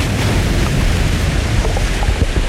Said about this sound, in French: Des trombes d'eau se déversent dans le tombeau et emportent la momie.